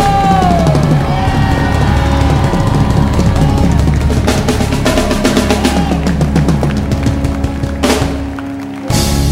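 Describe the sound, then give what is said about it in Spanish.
An audience shouts and whoops for joy during a live worship service, loud yells and cheers layered over continuous driving music that stays full and dense before dropping away abruptly at the very end. “¡Ese grito de júbilo!”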